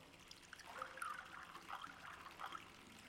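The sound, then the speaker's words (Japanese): Warmed sake trickles from a flask into a small ochoko cup, a faint, thin pour with a few brighter gurgling spurts as the stream continues. “さあさ、せっかく温めたんだし、あったかいうちに飲もう。はい、おチョコどうぞ。注いであげるね。”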